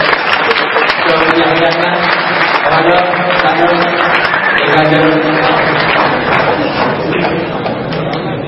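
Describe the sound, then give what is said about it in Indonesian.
Applause from the audience at a religious lecture gathering, greeting a musical group: a long, steady stretch of dense clapping at even loudness, with voices audible beneath it and a slight easing toward the end. “tepuk tangan untuk Kiai Kanjeng dan Jarnon.”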